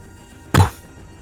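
A single heavy punch lands in a wrestling fight, one sharp, loud thud with a brief low-end body that fades quickly into near silence.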